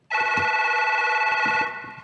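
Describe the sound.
A telephone ringing before the call is answered: one sustained, bright electronic ring with rich overtones that lasts about a second and a half, then fades out.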